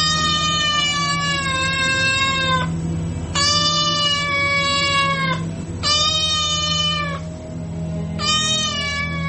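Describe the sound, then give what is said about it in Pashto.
A cat meows repeatedly at a window, four long, wavering, high-pitched cries with short gaps between them, loud over a low steady background hum. “پیشو له بهره د کړکۍ ژی ته راختلې وه، میو میو یې کاوه.”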